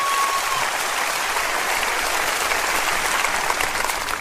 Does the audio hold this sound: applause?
yes